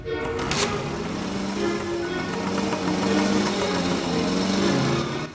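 Vespa scooter engines drone as the riders pull away, a steady, buzzing motor whine with a slight wavering in pitch that runs throughout, loud and continuous.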